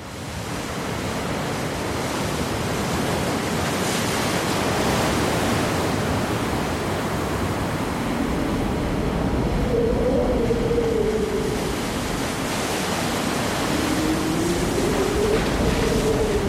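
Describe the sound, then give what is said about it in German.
A wild, stormy sea at night: a loud, continuous rush of surging waves that swells and eases only slightly throughout. “Die See ist wild heut Nacht und die Dunkelheit, die runterkommt, kann sie nicht beruhigen.”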